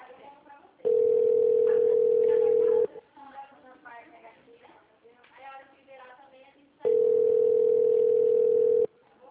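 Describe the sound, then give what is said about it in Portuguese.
Ringback tone of an outgoing phone call waiting to be answered: two long, steady, level tones of about two seconds each, separated by a gap in which people talk. “Vamos ver se vai atender, tá chamando.”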